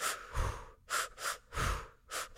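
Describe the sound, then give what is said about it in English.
Rhythmic breathing from a breathing meditation exercise: quick, airy breaths in and out repeat in a steady pattern over several cycles. Some breaths are short and others longer, with no talk. “For 45 minutes, they have you breathe in twice and then exhale.”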